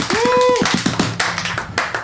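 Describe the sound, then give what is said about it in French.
Scattered hand claps from a small group giving TV-style applause, opening with a brief high whooping voice, then a handful of uneven, separate claps that thin out toward the end. “applaudissements en mode télé”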